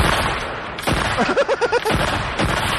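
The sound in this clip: Sniper rifle gunfire gives a few sharp, loud cracks with a quick pulsing burst between them, set against a dense background.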